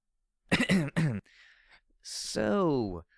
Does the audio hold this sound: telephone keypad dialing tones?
no